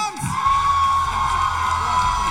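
A theatre audience at a live show cheering loudly, with whoops and shouts over a dense, steady wash of crowd noise that holds at an even level from start to end.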